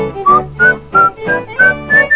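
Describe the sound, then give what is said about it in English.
Whistling carries a cheerful tune as six bright, evenly spaced notes, with fuller, lower tones sounding beneath each one. “When the devil's on the scene, the kid goes whistling by.”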